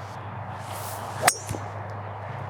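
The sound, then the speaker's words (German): A 3 wood strikes a golf ball on the second shot of a par 5 with a single sharp metallic crack. A fainter brief click follows, and a steady low hum continues throughout. “Paar 5, zweiter Schlag, endlich mal mein Holz 3 wieder, war ja bislang nur wirklich an T1 am Abschlag, ist ja sonst wirklich so einer meiner Favoriten.”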